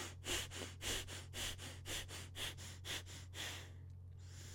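Very quick breathing in and out through the nose: many rapid, rhythmic sniff-like bursts at an even pace, fairly soft, over a steady low hum, then a brief pause at the end.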